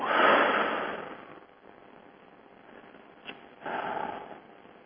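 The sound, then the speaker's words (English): Deep breathing during a guided relaxation exercise: a long, breathy rush of air, then a quieter stretch, then a second breathy rush. Both are soft and airy, with no talking. “So take a deep breath. Let's let all that stuff go.”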